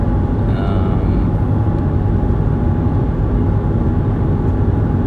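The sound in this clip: Loud, continuous low rumble of road and engine noise heard from inside a car driving back from an internship, steady and unbroken, with no talk.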